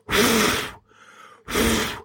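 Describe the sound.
Air blown from the mouth onto a hand comes as two long, breathy puffs of about three-quarters of a second each, split by a short pause with a faint softer breath.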